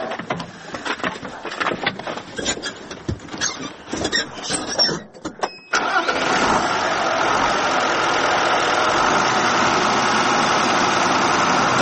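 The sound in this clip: A tractor engine runs in a grain field at night. Irregular, uneven noise in the first half gives way to a steady, loud, continuous engine drone that holds to the end.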